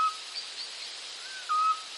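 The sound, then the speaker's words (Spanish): A European scops owl (Otus scops) giving its flute-like tiu call: a brief, faint whistled note at the start, then a clearer steady one, both level in pitch over a constant hiss. “Y es un tiu-tiu, es un sonido aflautado que se asemeja al sonar de un submarino. El autillo europeo, Otus scops, es el ave rapaz nocturna más pequeña de la península ibérica”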